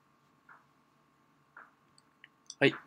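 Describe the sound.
Computer mouse clicks: a few soft, sharp clicks spaced apart over a faint steady hum, with the last click noticeably louder.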